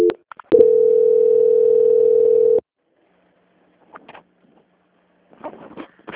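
A telephone tone sounds while a call is being transferred: a short blip, then a steady, unbroken tone lasting about two seconds, followed by quiet with a few faint clicks.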